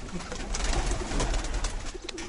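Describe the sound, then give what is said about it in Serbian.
Sport pigeons kept for flight competitions coo softly and steadily, a low murmuring that runs throughout. “Ovde najvažnije u suštini dokazivanje. Kome golubi najbolje lete i to.”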